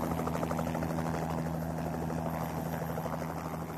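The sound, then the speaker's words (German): A helicopter flying toward a base camp below Nanga Parbat makes a steady, loud rotor and engine drone with a constant low hum. It holds evenly for the whole clip, with no talk. “werden von einem Hubschrauber in Empfang genommen. Sie fliegen Richtung Basislager.”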